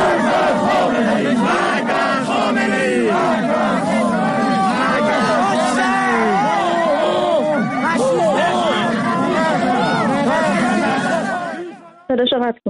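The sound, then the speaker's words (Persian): Sharif University students chant anti-Khamenei slogans at Alireza Zakani during his visit to speak at their university, a loud, dense crowd of shouting voices sustained throughout before cutting off abruptly near the end. “دانشجویان دانشگاه شریف در حالی که علیرضا زاکانی در دانشگاهشون حاضر شده بود برای سخنرانی، در مقابل او با شعار مرگ بر خامنه ای رو استقبال کردند. بشنویم صدای این ویدیو رو.”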